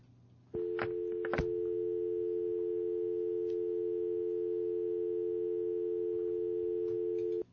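A steady telephone line tone follows a radio call-in caller being cut off. It opens with a couple of brief clicks, then one continuous, unchanging pitch holds for about seven seconds.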